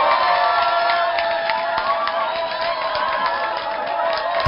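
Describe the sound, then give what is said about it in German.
Crowd cheering and clapping in response to an announcement that a show is moving to primetime: loud, sustained voices with whoops and scattered claps running evenly throughout. “Und ich denke, das ist doch ein kleiner Applaus wert.”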